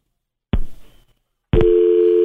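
Telephone line tone after a caller hung up on a call-in show: a sharp click with brief fading noise, a second of silence, then a loud steady tone that holds to the end.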